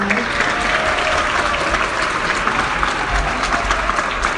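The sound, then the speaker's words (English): Audience applause after a class fills the whole clip: a dense, steady wash of many hands clapping at once, loud and even throughout with no pause. “another round of applause for”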